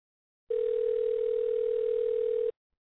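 A telephone ringback tone on an unanswered call: one steady, level tone lasting about two seconds, alone, with no voices.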